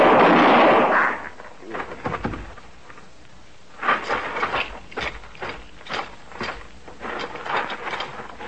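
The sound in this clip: A rifle fires once in a barn, a loud blast with a decaying tail, followed by quieter scattered mechanical clicks and rattles.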